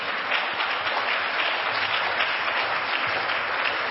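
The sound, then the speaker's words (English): An audience at a church jubilee gathering applauds to welcome an apostle, producing dense, continuous clapping that holds at a steady, full level throughout. “Shall we just stand up together as we welcome Apostle Ulysses Tuff? Put your hands together for the Lord.”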